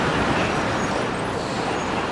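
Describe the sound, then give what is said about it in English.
Heavy road traffic with many large trucks rolls past near a tower, a dense, continuous roar and rumble that holds steady without pause. “Hopefully, we'll get away from some of this traffic. There are a lot of trucks.”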